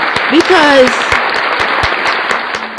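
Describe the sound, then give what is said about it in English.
Applause cheering listeners during a faith-based talk about purity, heard as a loud, steady wash of clapping throughout. A voice is briefly heard near the start. “let's do an applause for you”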